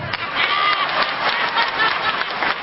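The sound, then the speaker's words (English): Audience applause breaks out during a stage talk: a steady, dense wash of many hands clapping at once, holding at an even, fairly loud level with no clear pauses for its full length. “Somebody clap.”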